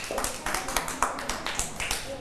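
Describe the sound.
Rhythmic hand clapping for a child, with a few people clapping in an even beat. Talking continues over the claps.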